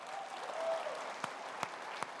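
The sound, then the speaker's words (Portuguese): Faint applause from an audience honoring volunteers, a soft continuous wash of clapping with three sharper claps standing out toward the end. “Você pode aplaudir os nossos voluntários?”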